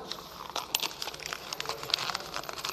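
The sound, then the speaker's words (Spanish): A sheet of paper being crumpled, with dense, crisp crinkling and crackling that runs steadily through the whole stretch, fairly quiet and heard alone without talk. “Que todo esto que acabo de decir se convierta en esto, en un papel arrugado, en ruido, en nada.”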